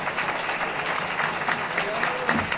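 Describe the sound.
Applause from an audience at a recovery group meeting welcoming a speaker, dense and continuous clapping at an even level with no pause.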